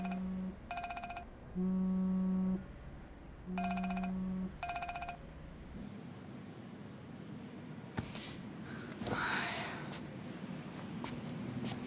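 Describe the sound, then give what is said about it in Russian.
An electronic telephone ringtone plays in two fairly loud bursts of bright, buzzy, melodic tones, each made of short repeated notes, then fades into a stretch of steady low background noise. “Лёше звонит Лида.”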